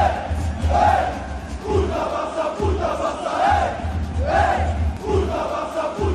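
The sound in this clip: Massed chanting from Paris Saint-Germain ultras warming up before a Champions League match against Barça: a loud, continuous wall of voices singing in unison, swelling and dipping in a steady rhythmic pattern.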